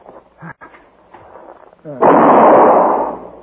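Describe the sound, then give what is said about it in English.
A rifle shot in a Western radio drama bursts out loud after a voice speaks briefly, a single sharp blast that rumbles and decays over the following second and a half. “I got him. He's dead. Yeah. Paladin, I shot the redskin.”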